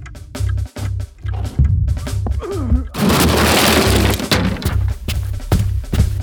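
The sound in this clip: Something is smashed in during an audio drama: a loud, dense crash with shattering noise erupts after a brief voice and keeps roaring for several seconds over a low, pulsing rumble.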